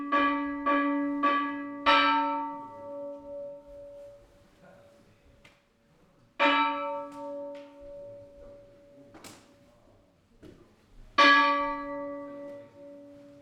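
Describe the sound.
A temple bell rings at the start of the Daihannya prayer ceremony held each January at Yamadera. It gives six clear strikes, four in quick succession and then two widely spaced. Each strike leaves a sustained, slowly fading tone.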